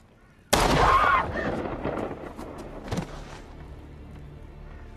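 A gunshot in a sci-fi TV drama scene rings out as one sharp, loud blast with a decaying tail, followed by a fainter second crack a couple of seconds later.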